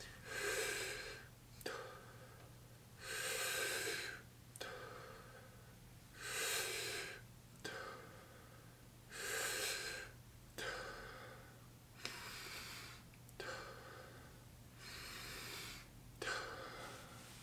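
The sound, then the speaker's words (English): Deep, slow breathing with full inhales and exhales alternating in a steady cadence of long airy rushes, heard alone over a faint constant low hum. “So it would look like the fully inhale, letting go, fully inhale, letting go,”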